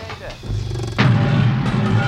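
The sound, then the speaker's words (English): A furnace sound effect: a single heavy boom lands midway, followed by a sustained low rumble that keeps going to the end. “It's a clinker! That blasted, stupid furnace, that gummit!”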